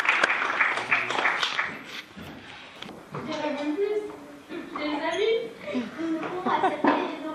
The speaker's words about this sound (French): Voici l'ambiance au cœur du public pendant la représentation des ados.